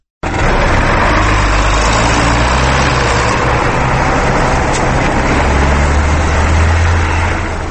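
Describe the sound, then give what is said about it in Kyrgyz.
The engine of a John Deere wheeled tractor ploughing a field at the edge of a village makes a loud, continuous low rumble. It holds an even, steady pace throughout, with no voices. “Дөңгөлөктүү Джон Дир тракторунун буурусуну Кундратит айылынын четиндеги сүдүгөрдү тилип оодарып жатты. Америкалык трактор жандоодо да жүрүшүнөн жазбай бир калыпта”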